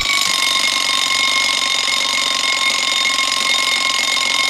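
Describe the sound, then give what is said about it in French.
An alarm clock rings on a bedside table in a shabby hotel room. The loud, steady ring runs without a break through the whole clip, and no voices are heard. “Le réveil retentit.”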